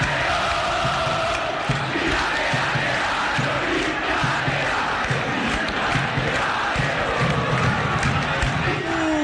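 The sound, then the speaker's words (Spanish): A football stadium crowd roars and cheers without pause after an Olimpia goal in the superclásico against Cerro. The dense, loud roar stays fairly even throughout. “Sandoval festeja con el público.”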